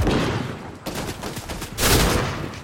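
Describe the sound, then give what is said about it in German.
Gunfire in the video game Fortnite is loud and dense, with shots running together into a continuous crackling barrage. It swells again near the end. “Mich wird geschossen.”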